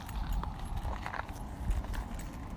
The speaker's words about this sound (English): The sounds that I'm paying attention to as I'm doing this ASMR, walking over rocks right now.